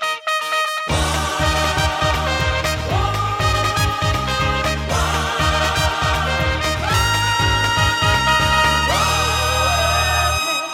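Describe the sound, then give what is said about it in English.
A television show's theme tune plays alone: loud, bright, upbeat instrumental music with a steady thumping bass pulse and sustained melodic lines running throughout after a brief silent start. “The theme tune to the One Show is the most nauseating thing in the world, isn't it?”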